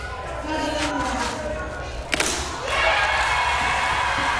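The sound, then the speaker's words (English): One sharp thud as a voodoo altar is crushed and broken during a church service, amid loud, continuous crowd noise. “She brought the entire altar, and now I'm crushing it.”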